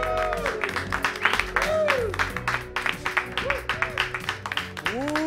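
Audience applause greeting the host's entrance on a late-night sports comedy show, with sharp scattered claps and brief rising-and-falling vocal cheers over a low hum, moderately loud and uneven in rhythm.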